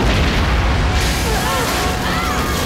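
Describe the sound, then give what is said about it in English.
Explosion aboard a starship hit by enemy fire amidships, with orange flame bursting through a bulkhead: a loud, dense, continuous roaring rumble that fills the whole clip, with faint whistling squeals running through it. “Enemy fire gets them amidships. Orange flame explodes through the bulkhead, knocking the crew for 6.”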